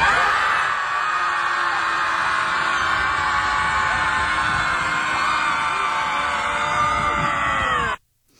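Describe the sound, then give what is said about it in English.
A crowd screams together in one long, loud, sustained scream that holds steady for about eight seconds before cutting off abruptly into silence. “Final scream! In 3, 2, 1!”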